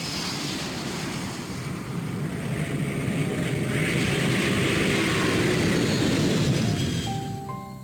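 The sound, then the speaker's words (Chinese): Steady rushing drone inside an airplane cabin before landing toward Chengdu Tianfu International Airport, a broad airy engine roar that swells slightly midway and then eases off at the end. “女士们、先生们，我们的飞机将于30分钟后降落在成都天府国际机场。”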